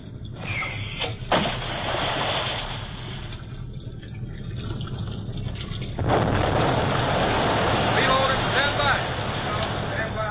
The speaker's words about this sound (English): In exactly 5 seconds, give the order to release depth bombs. Yes, sir. Stand by to release bombs. Stand by to release bombs. Fire! Fire!